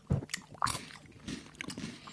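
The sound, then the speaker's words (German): Someone bites into and chews a lychee, with a couple of sharper bites near the start and then soft, wet chewing, all fairly faint. “Alles klar, dann probiere ich mal Litschi.”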